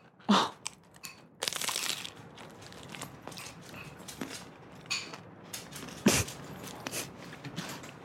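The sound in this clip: An organic cheesy gordita crunch taco with shredded lettuce is bitten and chewed. A few sharp, crackling bites stand out over a steady run of softer crunching and chewing, with no voices.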